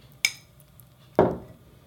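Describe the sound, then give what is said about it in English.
A sourdough starter of flour and water gets its container sides scraped down: one sharp clink, then a single gritty scraping swipe that fades out. “So at this point, all that I do is scrape down the sides,”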